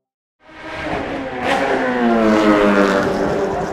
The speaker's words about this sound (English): It's easily the world's noisiest sport. Since 1950, Formula One racing has delighted fans around the world with its fast rides and fierce rivalries.